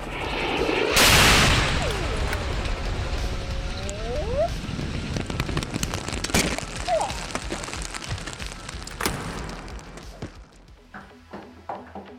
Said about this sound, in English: Where did Smith hide a rocket launcher in that jacket? Don't care! Get to the stairwell!